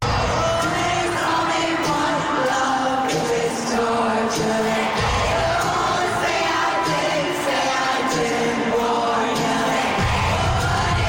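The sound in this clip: A stadium concert crowd in Sydney roars and sings together in a dense, continuous wall of voices, with rhythmic swells and shouts rising above the mass throughout.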